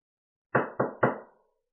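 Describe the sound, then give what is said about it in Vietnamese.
Three loud, evenly spaced knocks on a door, each sharp strike fading quickly, heard alone against silence. “Tiếng đập cửa vang lên. Lôi Thần chủ động đứng dậy đi ra mở cửa.”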